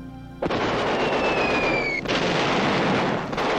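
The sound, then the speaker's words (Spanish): Bombs exploding and war noise in wartime Berlin during the Second World War: a sudden onset into a loud, sustained roaring blast, with a high whistling tone gliding slightly downward before it fades. “sonaban bombas, ruidos de ametralladoras.”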